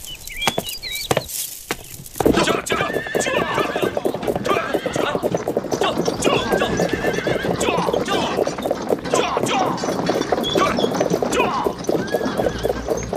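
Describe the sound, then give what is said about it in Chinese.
Horses draw the Grand Empress Dowager's imperial carriage procession, their hooves clip-clopping in a dense, steady patter with several neighs rising above the stream of hoofbeats. “回丞相，小的看清楚了， 那是太皇太后的车仗。”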